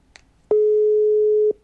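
An outgoing phone call's ringback tone gives a single steady, mid-pitched beep lasting about one second, heard alone against near silence.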